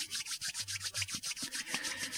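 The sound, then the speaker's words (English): Hands rubbed together quickly, making a rapid, even run of many dry swishing strokes that keep a steady rhythm at fairly constant loudness, with no voices. “Bring your hands together in front of you and start to rub them together.”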